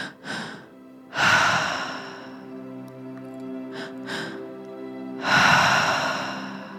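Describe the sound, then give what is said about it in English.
Deep breaths during a guided tri-active breathing exercise: a few loud, airy inhales and exhales, with softer breaths between them, over steady soft sustained music tones. No voice is heard. “And now moving into that tri-active breath. Finding a speed and a depth that feels good for you and meets you where you're at.”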